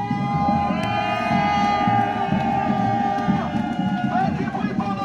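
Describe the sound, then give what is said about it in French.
Hundreds of marchers rallying outside Paris city hall after walking to the capital, a loud, continuous wash of cheering and shouting over a babble of voices, with some sustained high tones cutting through the crowd noise. “Voilà, c'était ce dimanche, des centaines de personnes rassemblées devant l'hôtel de ville de Paris après avoir marché du nord, de l'est, de l'ouest ou du sud jusqu'à la capitale.”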